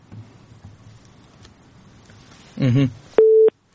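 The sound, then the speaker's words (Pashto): A telephone busy tone after a dropped call sounds as a single short, steady beep near the end, following a brief garbled burst, with faint low noise before it. “د اردن کې اړیکه شلېدلې ده”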